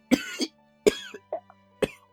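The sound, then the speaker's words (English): A voice imitates a nasty, rasping cough from a sick guard captain in a role-playing game scene: three harsh cough bursts, each trailing into smaller wheezy hacks and throaty after-sounds. “you hear a pretty nasty cough from him. He goes”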